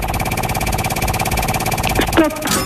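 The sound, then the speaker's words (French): A game wheel spins on a radio quiz show, giving a continuous, dense mechanical rattle of rapid clicks at a steady, fairly loud level, with a few brighter tonal sounds near the end. “On va tourner la roue des jeux ensemble.”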